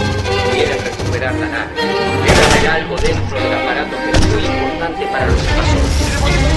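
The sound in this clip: Heavy gunfire in a radio drama, someone shooting nonstop from stadium stands at an advancing swarm of giant invading insects, forms a loud, dense, continuous barrage with a few sharper cracks standing out.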